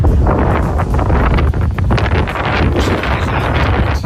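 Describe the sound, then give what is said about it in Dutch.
Strong wind blows outdoors during a walk, buffeting the microphone with a loud, low, continuous rumble and constant gusty fluttering throughout. “En het begint ook alleen maar te waaien.”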